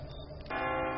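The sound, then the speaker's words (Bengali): A church clock bell striking two o'clock, with rich ringing tones: a fresh loud strike sounds midway through the lingering hum of an earlier one. “হঠাৎ গির্জার ঘড়িতে দুটোর ঘণ্টা বাজতেই চমক ভাঙল ভ্যালজঁর”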